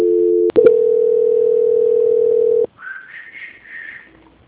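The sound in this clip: A phone line's transfer tone: a steady, low electronic hum with a brief break near the start. After about two and a half seconds it cuts off, and a fainter, higher, wavering sound follows.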